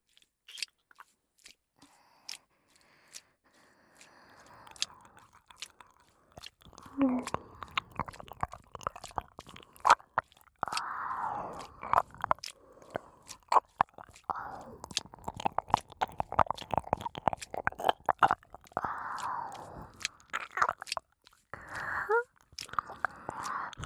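Crunchy eating sounds: someone biting and chewing, with many sharp, crisp crackles and clicks that come thick and fast in an irregular rhythm, growing denser and louder after the first few quiet seconds.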